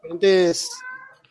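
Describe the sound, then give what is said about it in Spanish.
A pet cat wanting affection gives a single short, clear meow, a loud tonal cry with a breathier, higher tail that fades quickly. “¿Quién está sacrificando un gato? Mi gato que quiere cariño, así que lo alcé.”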